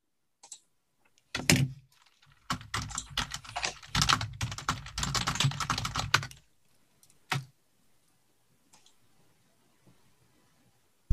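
Fierce typing on a computer keyboard: a dense, rapid clatter of loud keystrokes runs for about five seconds after a couple of isolated taps, then a lone sharp clack follows, with faint scattered ticks at the end.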